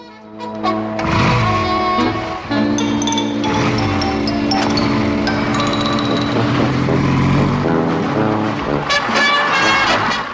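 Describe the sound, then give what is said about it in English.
A police motorbike engine pulls away on a road beside a bus, a loud continuous drone with shifting pitch throughout and no talk. “The officer drives away on his motorbike.”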